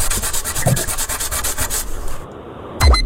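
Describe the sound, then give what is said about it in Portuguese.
A rubber eraser rubs out pencil marks in many quick, rhythmic scrubbing strokes for about two seconds, then goes quiet before a short, louder scrape at the end. “Eu acho que é apagar qualquer coisa com lápis ou borracha. Apagar com lápis ou com uma borracha? Apagar é com a... Tens de decidir. Com a borracha.”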